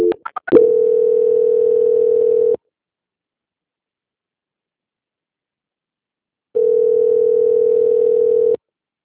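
Tone of a phone call being transferred to another line: a few short clicks and blips, then two long, steady electronic tones of about two seconds each, separated by roughly four seconds of silence.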